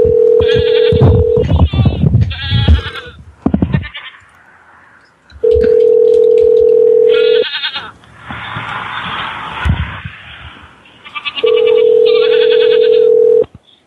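A goat bleating sound effect gives several wavering, nasal bleats, interleaved with three long, loud, steady telephone tones.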